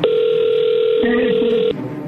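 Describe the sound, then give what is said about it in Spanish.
A steady telephone tone sounds as a call is being dialed, loud and unbroken for almost two seconds before cutting off. A voice briefly murmurs underneath during its second half. “A ver, ahí se está marcando”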